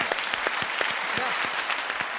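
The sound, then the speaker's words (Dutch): Audience applause: a steady, moderately loud patter of many hands clapping throughout, dense and even with no voices standing out. “Geef ze even een applaus.”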